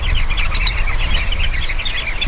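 Chattering of a flock of sociable birds: many overlapping chirps and calls form a dense, continuous babble throughout, with a low rumble beneath and no voices.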